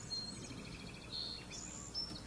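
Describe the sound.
Birds singing outdoors among trees, heard as a few faint, brief high chirps over a steady low background hum.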